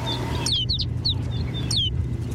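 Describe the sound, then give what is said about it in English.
A flock of snow buntings over a barren Arctic landscape gives short, high chirping calls in scattered bursts above a steady low rumble. “Now it's clear that rolling white cloud isn't snow at all, but a flock of snow buntings. These birds bring the barren landscape to life.”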